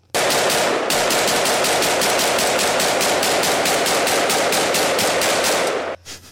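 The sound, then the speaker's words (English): Rapid automatic gunfire from an AK rifle: one sustained burst of many evenly spaced, loud, sharp shots that lasts about six seconds and then stops abruptly. No voices are heard. “that was an AK.”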